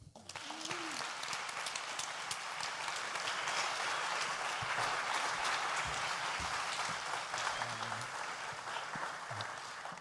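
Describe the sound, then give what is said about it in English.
Audience applause welcoming a reverend as a speaker, a dense, steady clapping that holds at full strength for about ten seconds before tailing off slightly. “open your hearts and put your hands together to welcome the Reverend Dr. Edward Viljoen”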